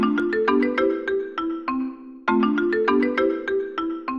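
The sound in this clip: A mobile phone ringtone plays a bright melodic phrase of plucked, chiming notes, repeating it twice with a brief pause between the two runs.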